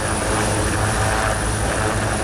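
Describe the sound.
Military helicopters thunder during an amphibious landing exercise in which marines seize an island: a dense, continuous rotor and engine roar with a thin high whine above it, steady and loud throughout, no voices.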